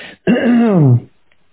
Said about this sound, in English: Sorry about the throat clearing. It's probably a nervous tic that I've had my whole life.